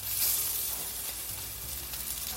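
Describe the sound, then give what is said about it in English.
Croquettes fry in a skillet, giving a steady, loud, bright sizzle and hiss that holds evenly throughout, with no talk over it. “You want to space them out. We're going to let this fry for 3 minutes on either side.”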